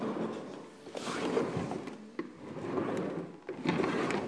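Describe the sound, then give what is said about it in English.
A wheelie chair rolls across the wooden floor of a mezzanine office, giving a faint, low, irregular rumble with scraping creaks and a few sharp clicks. “That noise is the sound of my lovely wheelie chair across the wooden floor of our mezzanine office.”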